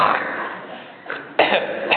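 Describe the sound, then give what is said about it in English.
Throat-clearing horking imitated by voices: a few harsh, rasping throat-clearing bursts with a quieter gap between them, the last ones loud and raw. “You want to make a horking sound now? I know you do.”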